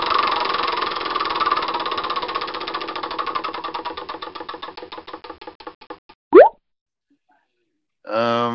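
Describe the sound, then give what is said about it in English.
A prize wheel with eight segments spins with rapid, loud ticking that gradually slows and spaces out until it stops, followed by a single hollow pop. “So we get to spin the wheel. Spin the wheel of randomness.”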